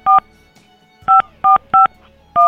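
Telephone keypad tones sound as a number is redialed: five short, clear beeps, one on its own, then a pause before a quicker run of four.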